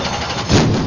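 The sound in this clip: Race car engines roar at full throttle on a speedway track in the Red River Valley, a loud continuous blare that swells midway and stays strong.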